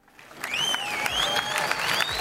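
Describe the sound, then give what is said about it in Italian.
An arena audience in Perugia applauds with a dense, steady clatter of clapping that swells quickly from a faint start. Several high, wavering whistles ring out over the applause. “E solitamente l'Arena risponde con un applauso che condividiamo con voi”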